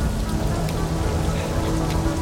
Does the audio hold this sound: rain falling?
yes